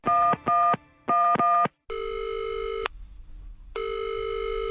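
A telephone call to Mariupol being dialed: a few quick, sharp dialing beeps in a short burst, then two long, steady tones separated by a pause filled with faint line noise.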